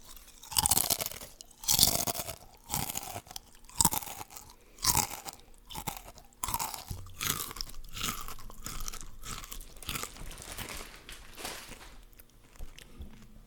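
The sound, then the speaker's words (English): Salt and vinegar potato chips crunch loudly in close bites, a series of sharp, crackly crunches that settles into softer, steady chewing toward the end, with no talk. “I'm gonna bring it back at it again with this ASMR chips before I set them down.”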